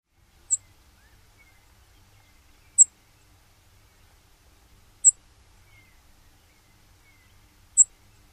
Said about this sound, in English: Now let's compare the Brewer Sparrow to the Chipping Sparrow call note. So first the Brewer Sparrow,